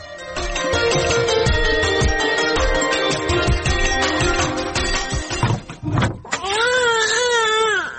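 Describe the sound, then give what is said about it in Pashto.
A young boy crying loudly in sustained, wailing sobs that break off briefly, then resume with a wavering, quivering pitch toward the end. “هلته هلک ژاړي او ته دلته په غوجله کې ناست یې.”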